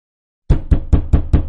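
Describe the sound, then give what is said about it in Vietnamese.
Hard knocking on the door of a house: five heavy, evenly spaced thuds in a steady rhythm, loud and alone, starting abruptly after a moment of silence. “Chủ quán vẫn hết sức bình sinh gõ cửa nhà họ Trần.”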